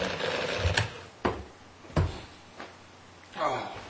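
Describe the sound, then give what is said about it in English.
Mechanical adding machine totalling numbers, a few sharp, spaced clunks and clacks from its workings, with voices talking around them. “Your machine totals it. You can save a great deal of time.”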